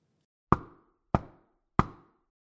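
Three sharp knocks on a door, evenly spaced and equally loud, each with a short dying tail, used as an audiobook sound effect in a quiet room.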